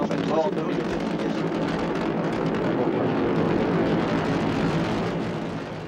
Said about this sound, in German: Allumage Vulcan. Allumage UAP, décollage. And lift off. Lift off. Third qualification flight of Ariane 5. Décollage d'Ariane 5.